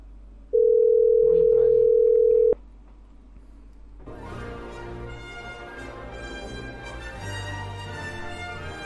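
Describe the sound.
A telephone line gives a single steady, loud tone for about two seconds while a number is dialed. The tone cuts off, and quieter, busier tonal sounds follow on the line.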